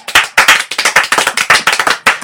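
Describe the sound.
A studio audience bursts into loud, brisk applause on cue from an applause sign, with many distinct claps tumbling together in an uneven rhythm.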